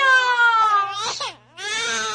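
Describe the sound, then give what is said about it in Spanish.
A baby crying in its crib at midnight: loud, sustained wailing cries that break for a brief gasp before the wail resumes. “¡El niño está llorando!”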